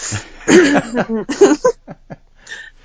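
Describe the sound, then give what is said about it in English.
Throat clearing used as a mock intro: a few rough, gravelly vocal bursts followed by several short, clipped catches that fade into quiet, with no words spoken. “Yep, that's the intro right there, the throat clearing.”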